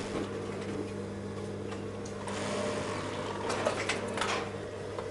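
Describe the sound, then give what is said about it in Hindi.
A sewing machine runs while its bobbin is being checked, giving a steady low mechanical hum under fine, rapid ticking that swells slightly through the middle and stays fairly quiet, with no voices. “इसको देखो, bobbin काम कर रही है या नहीं।”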